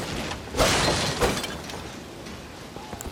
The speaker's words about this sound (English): we're going to smash these barrels